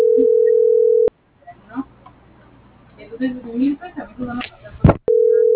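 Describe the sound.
A telephone busy signal after the caller hangs up: a steady, even tone that cuts off, a voice speaks briefly over faint background noise, then the same flat tone returns.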